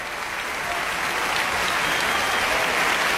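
Sustained applause from the audience in a sold-out concert hall at a cultural centre, honouring a violin soloist after an orchestral piece. Dense, even clapping with no breaks and no voices, holding steady throughout.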